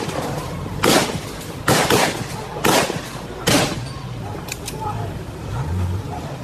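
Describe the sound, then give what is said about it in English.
Police gunshots fired at close range at Mapuche community members blocking a road in Lumaco: four loud, sharp bangs spaced about a second apart, then two faint clicks, with voices underneath. “What we are hearing in the background are shots fired at point blank.”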